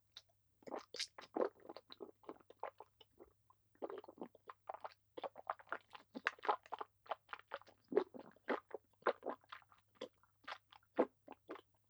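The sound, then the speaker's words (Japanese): Crunching and chewing as someone eats, with many quick, irregular bites and crunches running through the whole clip and no talk, over a faint steady low hum. “味わわせていただくとしましょう。そのまま、ご確認を。いただきます。”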